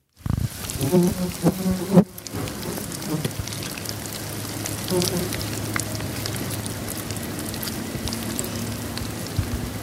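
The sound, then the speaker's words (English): A fly buzzes around the worms in a worm farm: a thin, steady insect drone runs throughout beneath a low hum, with busier, bumpier sounds in the first two seconds. “That's worms in his worm farm. What? I heard buzzing. How do worms buzz? Well, there was a fly around the worm.”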